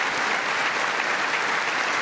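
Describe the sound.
Applause in the US Congress for a speech by King Charles, a continuous, even roar of many hands clapping at a steady level from start to finish.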